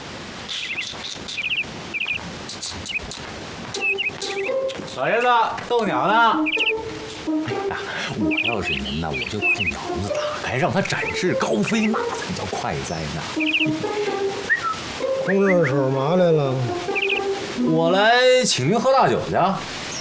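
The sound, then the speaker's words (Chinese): A caged pet bird chirps while an old man plays with it, giving many quick, high chirps and warbling trills in irregular bursts, with voices present in the background. “老爷子，逗鸟呢？哎呀，我要是您呢，我就把这鸟笼子打开，让它展翅高飞，那才叫快哉呢。”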